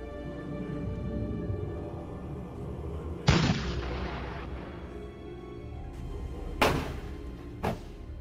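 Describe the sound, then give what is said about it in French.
Artillery salvos mark a fleet's arrival in the harbour of Cartagena: three loud booms over a steady low rumble, the first strongest with a long decaying tail, the last short and sharp. “Soudain, des décharges d'artillerie le préviennent que la flotte est entrée dans le port de Carthagène.”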